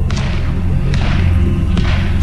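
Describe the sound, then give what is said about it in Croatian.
Crew firing shots on a ship's deck in celebration, a few sharp, thudding reports standing out over a continuous heavy low rumble. “Posada puca na palubi. Moji mornari slave.”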